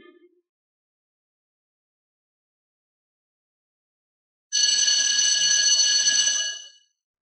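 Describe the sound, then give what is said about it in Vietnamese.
A school bell rings on a high school campus on exam day: after a long silence, one bright, shrill metallic ring sounds continuously for about two seconds, then stops. “Những tiếng chuông vang lên liên tiếp trong khuôn viên trường trung học số 1 của khu Nghi An”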